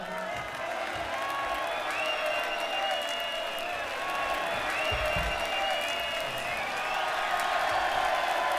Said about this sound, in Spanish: Un aplauso para él, por favor.